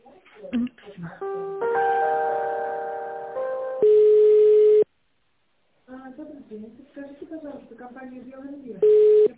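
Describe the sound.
Telephone ringback tone heard while a call is transferred: a brief multi-note electronic chime, then a steady, loud single-pitched tone in two separate pulses, with a voice speaking between them.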